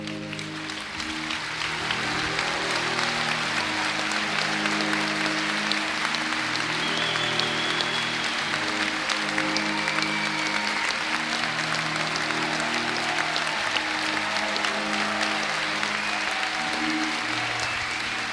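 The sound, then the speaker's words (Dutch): Applause follows an English waltz dance demonstration: dense, sustained clapping from an audience that rises quickly in the first second, then holds steady and loud throughout, with faint tonal sounds beneath. “U hoort op dit moment het fantastische applaus, een verdiend applaus, het zwelt aan, het wordt steeds mooier.”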